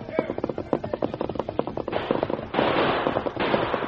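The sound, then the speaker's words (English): Sharp gunshot cracks from warning shots fired by a rider on horseback, striking the ground near men: a rapid series of loud reports, followed by a steady noisy rush. “He fired several warning shots that hit the ground close to men who sought to bring their guns to bear.”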